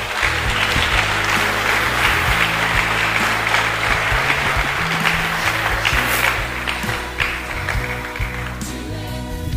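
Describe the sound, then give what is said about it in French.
A church audience applauding: sustained, dense clapping over steady low tones, holding strong for most of its length and easing slightly toward the end. “Est-ce qu'on peut très fort acclamer la parole de Dieu?”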